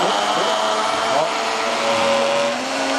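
A blender whirs as it juices celery, coriander, onion, garlic and other vegetables packed tightly around the blade. The motor roar is loud and constant from start to end, with a faint steady tone inside it.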